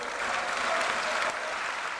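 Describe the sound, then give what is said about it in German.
Long, sustained applause fills the European Parliament for its newly elected president, a dense and even wash of clapping that continues throughout and eases slightly toward the end. “Ein lang anhaltender Applaus für den ersten Parlamentspräsidenten aus einem osteuropäischen Mitgliedsland.”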